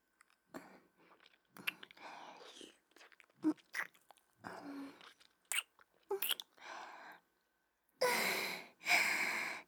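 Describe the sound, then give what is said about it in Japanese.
Kisses land on someone's back as a series of soft, wet lip smacks at irregular intervals, mixed with quiet breathy sounds and ending in two louder breathy bursts. “背中にキスをしてほしい？いいわよ。”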